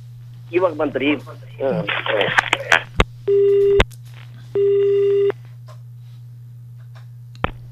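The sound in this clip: A telephone line rings twice with steady buzzing tones as a listener calls into a farm radio phone-in. Brief talk comes first, with a few clicks and a constant low hum underneath.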